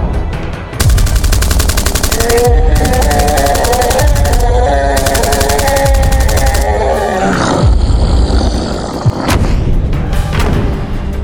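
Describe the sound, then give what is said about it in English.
Pistol gunshots fired at giants in an audio drama scene. Loud, rapid bursts of shots come in several blocks over heavy roaring and grunting, and a few sharper single cracks stand out near the end. “Give me the gun. Here, take my pistol.”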